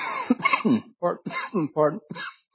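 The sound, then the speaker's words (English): Hoarse coughing and throat clearing from a preacher with a lingering cough during a church sermon, a few rough bursts separated by short gaps, with voiced sounds between them. “You know, some of you have been praying for this cough”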